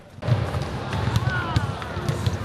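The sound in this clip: Basketballs bounce during dribbling practice at a youth basketball training session, with many overlapping dull thuds in a steady, busy rhythm and voices murmuring in the background.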